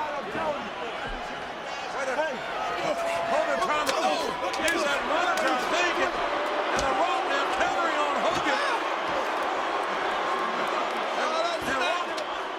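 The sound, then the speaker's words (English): A chair smacking a wrestler during a wrestling match: sharp slamming impacts punctuate a constant roar of crowd noise, with voices talking throughout. “Smack to the Hogan. That's a chair.”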